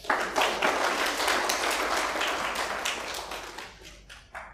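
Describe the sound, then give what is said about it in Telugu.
Audience clapping at a Telugu religious discourse, a burst of dense applause that thins out and ends with a few scattered claps. “చూసారా పొగడతలు ఇలా పొగడగానే చప్పట్లు కొట్టారు”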